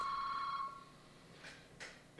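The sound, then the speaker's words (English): A telephone rings with one short, bright electronic trill that stops abruptly after under a second, leaving a quiet hiss. “Should we answer the phone, Rob? Go for it. Let's see. Let's see what happens.”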